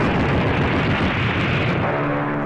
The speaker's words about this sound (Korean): 적기들이 폭탄을 퍼붓고 나팜탄과 기관포를 쐈다.